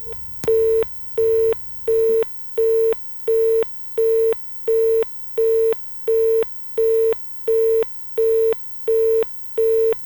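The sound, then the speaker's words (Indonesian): A busy tone sounds after a dropped phone call during a radio interview. More than a dozen identical mid-pitched beeps repeat with even gaps, alone after a brief low rumble at the start. “Ya baik, saudara pendengar, terputus ya. Kami akan coba kembali menghubungi beliau.”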